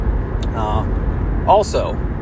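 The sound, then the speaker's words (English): Steady low engine and road rumble fills the inside of a moving car driven hands-free, continuing evenly throughout with occasional brief higher chirps. “Yes, I am recording this podcast while I'm driving.”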